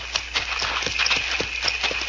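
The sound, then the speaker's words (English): Horses move along on hooves that clip-clop in many quick, fairly even strikes, a steady trotting patter with a faint high tone running behind it. “Let's get these horses out of sight.”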